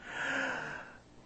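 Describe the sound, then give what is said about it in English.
A single deep breath drawn in by a person speaking about faith. It is a soft, breathy rush that swells and then fades over about a second, with no speech over it. “okay, all right, deep breath.”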